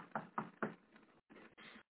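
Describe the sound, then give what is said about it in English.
A door is knocked on in a quick series of short, muffled thuds. A few sharper raps come first, followed by softer, more blurred knocks. “They should be knocking on the door right now.”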